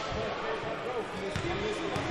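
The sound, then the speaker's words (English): Basketball dribbled left-handed by a player at the free throw line during a game, soft thumping bounces under a commentator's talk and faint crowd noise. “Left-hand dribble at the free throw line.”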